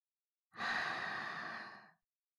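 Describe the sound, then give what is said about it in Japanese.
A single slow exhale through the mouth during a guided breathing exercise, a soft breathy rush that rises quickly, holds for about a second and a half, then tapers off into silence. “口から息を吐いて。”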